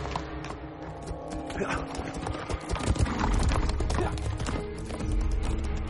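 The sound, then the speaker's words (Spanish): Galloping horse's hooves as a fleeing rider rides off in a Spanish historical adventure film scene. A fast, steady clip-clop runs throughout and grows somewhat louder midway. “este le mira unos instantes y da media vuelta huyendo al galope.”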